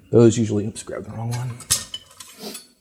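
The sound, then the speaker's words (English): Knife trimming the edges of rolled cinnamon roll dough on a cutting board: a few clattering scrapes and light clinks of the blade, with brief sharp taps between, moderately loud. “what I want to do now is just take a knife and I am going to trim the edges so they're square.”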